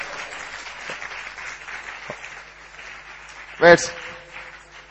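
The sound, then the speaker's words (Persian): Audience applause forms a soft, steady clatter of clapping, with a brief louder burst of voice rising over it near the end. “اگه خبر خوبه یه دست درست حسابی بزنیم.”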